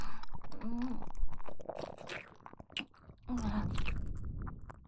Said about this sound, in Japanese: あの美味しい白い胞子がまだキノコの中に残ってるかも。それはさすがにもったいないので、いただきます。